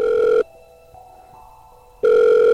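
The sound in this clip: Ringback tone in a phone handset after dialing a call: a steady electronic tone that cuts off, leaves a silent gap of over a second, then starts again. The two bursts are loud and clear, with no voices.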